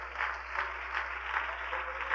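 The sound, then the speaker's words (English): A worshipping audience claps hands in a faint, steady rhythm, with even beats repeating throughout over a low hum. “Can we give the Lord a hand clap?”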